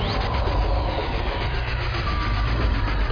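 A train gives off a steady, dense rumble with a continuous mechanical roar that holds at an even loudness throughout, with no voices.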